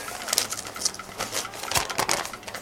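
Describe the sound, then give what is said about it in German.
Someone opens a paper envelope. Many crisp rustles and crackling tearing sounds come in an irregular run, fairly faint and with no talk. “Mach doch erstmal den Umschlag auf”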